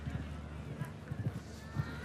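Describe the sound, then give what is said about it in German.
Galloping hoofbeats of a show-jumping horse on course, a low, dull thudding rhythm that sits under a talking voice. “So, und Starissa hat Galopp. Den lässt er nochmal raus, den Galopp.”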